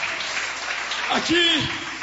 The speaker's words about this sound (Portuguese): Pode sentar e aplaudir ao Senhor.